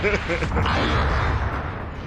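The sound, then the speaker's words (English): A railgun blast destroys a small ship in a video game: one deep booming burst followed by a rumbling decay, with a voice briefly heard at the start. “Yeah, so that's the impact of one railgun blast on these smaller ships. That took complete destruction of one of them.”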